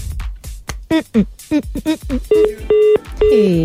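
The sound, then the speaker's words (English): Touch-tone dialing on a telephone: a person talks in short bursts, then three steady, clear dial beeps sound in a row, each held briefly, with short gaps between them. “I'm dialing.”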